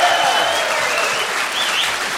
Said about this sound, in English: Let's have the bowlers applaud now, please. See? Yeah. Listen to that, my friend. Bowlers, always welcome. Listen to that.